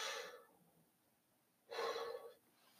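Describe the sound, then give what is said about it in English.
Deep breathing into the belly, two soft, airy breaths separated by a quiet pause of about a second, the second breath fuller and slightly longer. “I take a deep breath into my belly. Exhale. Deep breath.”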